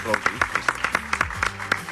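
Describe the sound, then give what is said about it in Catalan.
An audience at a live talk claps in a quick, regular run of separate hand claps while a voice keeps speaking over them. “Hi ha aplaudiments, no? Podeu aplaudir, sí, sí. Podeu aplaudir. No us talleu.”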